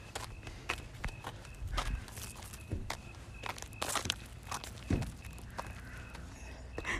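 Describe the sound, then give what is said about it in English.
Footsteps of people walking, many steady steps in an uneven rhythm over a low continuous background with a faint steady tone. No one talks. “Do we keep on walking? We have to, right? What do you mean, walk slow? That's not an option.”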